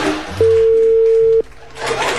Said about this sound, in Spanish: No, parece que no contesta, chiquillo. Va a tener una llamada perdida en la Radio Universal.